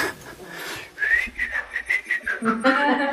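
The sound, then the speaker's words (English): A person whistles a quick tune of many short, bright notes in an even rhythm, fairly loud and alone. “just walk away whistling.”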